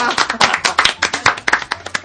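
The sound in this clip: Scattered hand clapping from a small group during a band's talk session, many sharp, uneven claps overlapping at a quick irregular pace, fairly loud, with people talking alongside.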